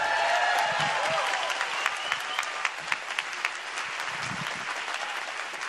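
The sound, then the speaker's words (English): Audience applause from a church audience clapping on cue during a service: a dense, steady wash of many hands, with scattered sharper claps standing out as it carries on at a fairly even level before easing slightly. “let me hear you put your hands together.”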